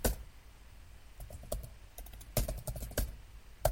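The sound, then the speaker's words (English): Fingers type on a computer keyboard while a C function prototype is entered. The quiet, irregular keystroke clicks come in short bursts with brief pauses and no talk. “So I might type in void, and then the name of my function,”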